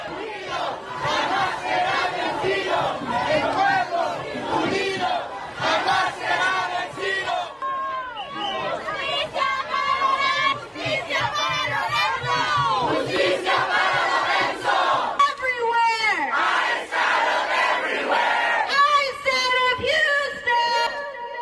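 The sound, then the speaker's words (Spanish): Crowd shouting at a protest against violent immigration enforcement actions: many loud voices yelling and chanting together, continuous and dense, with surges and dips in intensity throughout. “Parte de los sonidos, parte de las protestas que se han desatado en estos momentos por estos actos de violencia.”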